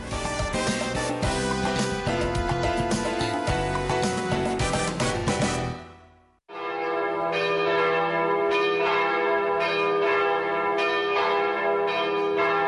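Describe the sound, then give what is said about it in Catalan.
Church bells ringing in a dense, continuous peal of overlapping strokes. The peal breaks off abruptly after about six seconds, then resumes with a steadier, layered ringing. “Sonen campanes.”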